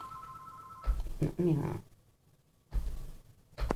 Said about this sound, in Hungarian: Na, bocsánat, csak közben telefonunk van.